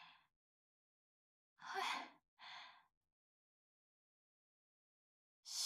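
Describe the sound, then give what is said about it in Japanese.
A nervous person takes a deep breath: a short breath, then a long airy inhale and exhale, and another breath starting at the end, with silence between. “深呼吸ですか？”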